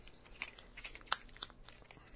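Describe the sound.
Lava crust tiles snap into place with one sharp click near the middle, surrounded by faint crinkling and small crunching sounds as the pieces are handled.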